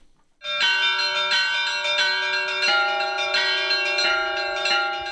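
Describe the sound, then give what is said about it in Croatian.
Church bells ring out at midnight from Serbian Orthodox churches in Banja Luka, marking Christmas. After a brief quiet, loud, sustained peals begin, with repeated strikes and rich, shimmering overtones that hang and blend together. “Zvona sa crkvenih hramova u ponoć simbolično su oglasila trenutak rođenja Sina Božijeg Isusa Hrista.”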